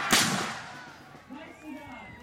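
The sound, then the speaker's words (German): A single musket shot rings out during weapons training, a sharp crack with a long fading tail, followed by a voice talking quietly. “Waffenkunde steht auf dem Programm. Wir schießen mit Musketen. Schnelles Nachladen zählt mehr als präzises Zielen.”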